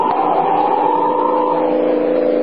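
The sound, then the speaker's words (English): A car speeding and skidding around a curve, heard as a loud, sustained whining tone that holds steady and dips slightly in pitch midway, with no talk. “Look at him skid around that curve. He's mad or drunk. Great Scott, what's he trying to do? Catch the car ahead of him?”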